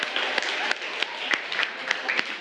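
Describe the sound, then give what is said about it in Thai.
Children applaud a classmate in a school class, a steady patter of many hands clapping at moderate loudness with a few sharper individual claps, and no clear speech over it. “โอ้ปรบมือให้เพื่อนหน่อย”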